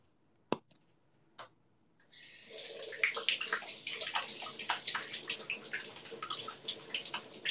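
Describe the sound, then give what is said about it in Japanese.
Hands being washed under a running tap: a few sharp clicks first, then a steady hiss of running water with irregular splashes from about two seconds on, fairly quiet overall. “お手手洗いの音”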